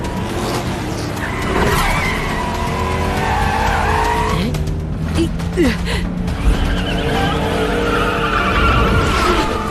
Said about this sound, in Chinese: 两辆赛车丝毫不肯退让，激烈争夺着这条赛道的主权。